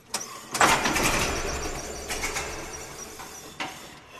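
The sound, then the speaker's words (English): A 1918 Liberty Truck engine is started with a hand crank. It catches with a loud rough burst and settles into a steady low rumble with a few uneven surges. “This one was built in 1918, and the motor starts with a hand crank.”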